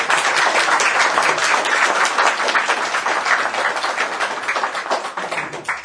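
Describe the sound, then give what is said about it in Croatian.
Applause from an audience thanking two people for their translations into Slovenian: dense, steady clapping that holds at an even loudness and eases slightly toward the end. “Ja mislim da brat Roman i sestra Sonja zaslužuju jedan pljesak za sve prijevode.”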